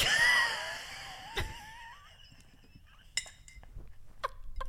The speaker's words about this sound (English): whatever just came out of you, that wheeze, like, sent me literally, I think, to the moon.